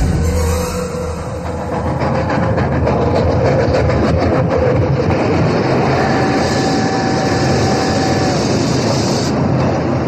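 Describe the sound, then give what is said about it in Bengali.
A train sound effect from a radio drama: a loud, steady rumble of a moving train with continuous wheel and carriage clatter throughout, and no voices. “সকালে train.”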